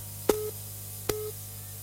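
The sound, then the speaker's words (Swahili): A busy tone sounds on a telephone line after a radio caller's call drops. It gives two short, steady mid-pitched beeps about a second apart over a constant low hum. “naona huyu amepotea hewani, bila shaka mawasiliano hayajakaa vizuri.”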